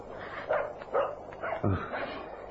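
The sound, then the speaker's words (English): Small dog yapping in a few short, sharp barks at an uneven pace, fairly faint throughout, with no voices over it. “It's a dog. A little dog barking.”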